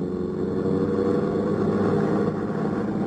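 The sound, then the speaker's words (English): A car driving off, staged as a sound effect: a steady, fairly loud engine rumble that holds even throughout, with no voices. “Ed Porter settled the hat lower on his ears and gripped the wheel harder, and we took off for Angelo's on Stoker Street.”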